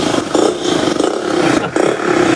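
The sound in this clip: A motorcycle exhaust roars loudly and steadily with a rough, throaty tone, dipping briefly a few times as the revs change, and no talk.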